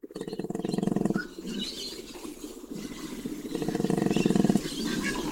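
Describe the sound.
A male koala grunting up in a tree, with deep, rasping, pulsed bellows in two long bouts separated by a short lull. The calls are moderately loud with no talk.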